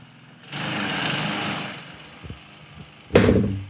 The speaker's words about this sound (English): 9 a.m. Saturday morning. Gotta mow the lawns, love.